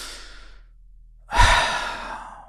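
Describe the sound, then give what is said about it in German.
A deep breath in and out: a soft, airy inhale fades away, and after a short pause a louder, breathy exhale rushes out and slowly tapers, like a long sigh. “Einmal tief ein- und ausatmen.”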